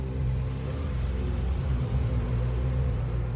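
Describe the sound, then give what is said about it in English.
A car on a road gives a steady, low engine rumble that holds at an even level throughout, with no voices. “I think I see a car coming.”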